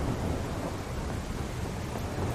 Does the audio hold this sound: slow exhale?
no